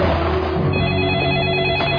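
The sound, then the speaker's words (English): A telephone bell rings loudly and steadily through the whole stretch, a dense, continuous metallic ringing with no pause. “Phone call! Phone call! I get a phone call!”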